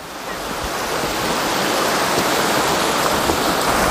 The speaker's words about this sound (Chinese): 在这里我们看到的飞流直下啊，北丈瀑布